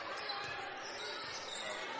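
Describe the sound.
A basketball dribbled during a girls' high school game between Maplewood and Central Magnet, faint bounces under steady play-by-play commentary and court noise.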